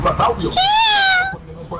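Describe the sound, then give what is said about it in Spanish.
A cat's meow sounds as a single drawn-out, tonal cry whose pitch rises and then falls. It is loud and brief, and a few short voiced sounds come just before it. “Sí, ese es un gato.”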